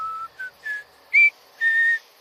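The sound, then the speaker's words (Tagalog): A person whistles repeatedly: five clear, high whistled notes separated by short gaps, with shifting pitch. The final note is the longest. “Kaya naisip kong sumipol ng sumipol at hinayaan ko lang na sumagot ang kung sino man sa kabilang lupain.”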